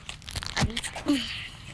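A banana peel is torn and twisted off the fruit, making a few short, crisp tearing and crunching sounds at moderate loudness.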